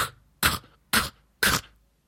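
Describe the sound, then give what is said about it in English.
Beatboxed K snare, an exhaled sound: three sharp, breathy bursts spaced evenly about half a second apart, each crisp and quickly decaying, with no talk around them. “So is the K snare. It's an exhaled sound. You care to give that a go?”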